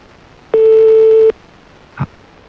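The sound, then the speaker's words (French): Telephone ringback tone on an outgoing call left to ring until the answering machine picks up: one steady electronic tone of under a second, then a short click. “Bon, on va laisser sonner alors jusqu'à ce que ça tombe sur le répondeur.”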